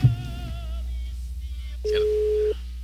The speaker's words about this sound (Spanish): La llamada se cobrará al terminar los tonos siguientes.